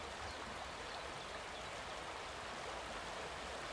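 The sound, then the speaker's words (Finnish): Steady rushing roar of the Mustijoki river's longest natural rapid, a constant, even wash of water noise without pauses or voices. “Mustijoen pisin luonnontilainen koski. Ja siellä kun herra radiokuuluttaja aamusella aikaisemmin tänään käväisi paikan päällä, niin tältä siellä kuulosti.”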